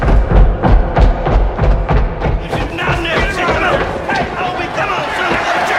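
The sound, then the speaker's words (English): A mob bursts in carrying a log: many heavy thuds and running footfalls at first, then a dense, loud crowd commotion with mixed voices. “A mob bursts in, carrying a log. They run towards him.”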